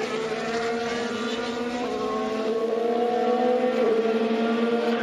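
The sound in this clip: Formula 1 engine of Kimi Raikkonen's car at the 2016 Australian Grand Prix as he pulls over after a fire caused by a leak: a loud, sustained droning whine that stays mostly steady in pitch, heard alone.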